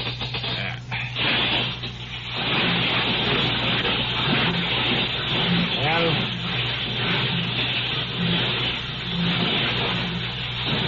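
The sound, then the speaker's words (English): A car windscreen washer pump running after the wrong switch was turned instead of starting the engine: a steady whirring motor with hissing spray, heard under people talking. “Did you turn the right switch there? That's the washer going.”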